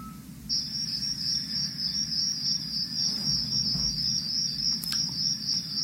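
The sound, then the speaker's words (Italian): Crickets chirping in a steady, unbroken high trill that runs the whole way through, over a low rumbling background. “Sono suggestivi i grilli. Ricordano la quiete notturna.”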